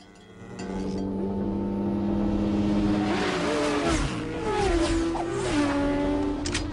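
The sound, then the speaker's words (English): Cars speed past on a roadside, engines climbing to a loud sustained roar. Revving pitch shifts and a whooshing sweep come as they go by. “Trey and his gang sit astride their bikes by the side of the road and watch as Ford and his friends speed by.”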